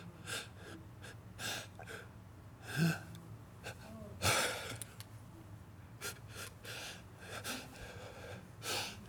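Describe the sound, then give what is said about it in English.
A man's voice imitates the labored, gasping breathing of a sick hospital patient on oxygen: many short, rasping breaths in an uneven rhythm, with two sharper, louder gasps partway through. “I watched that man sit there, and I mean every breath was a workout. He literally would go,”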